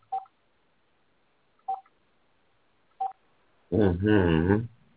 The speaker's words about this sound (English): What's the number we're going to dial? I'm going to try to get an interview.